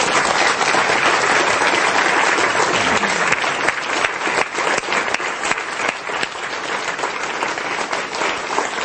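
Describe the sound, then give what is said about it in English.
Audience applause at a live show, loud and sustained, the dense wash of clapping gradually thinning into more distinct claps toward the end. “I'd like you to give yourselves a hand for being such a kind of audience.”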